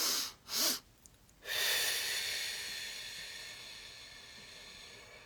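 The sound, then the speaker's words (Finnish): Quiet breathing exercise: two quick inhaling bursts, a deep breath topped by a short extra sniff, then a pause and one long, slow exhale that fades gradually over several seconds. “Eli hengitetään niin kuin nopeasti keuhkot täyteen, sitten vielä vedetään pieni nokkasun ilmaa ja sitten, että keuhkorakkolat aukeaa ja sitten puhaltaa pitkään ulos.”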